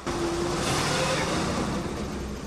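A car driving away: a steady, broad engine and road rumble that starts abruptly and holds at a fairly even level, fading slightly near the end.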